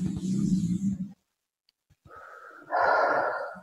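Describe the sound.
Deep breaths: one long, heavy breath, a short silent pause, then another drawn-out breath that swells louder before tapering off.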